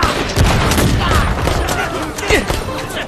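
Gunfire rattles through a battle: loud, dense bursts of overlapping shots and sharp cracks continue without a break over a rumbling background.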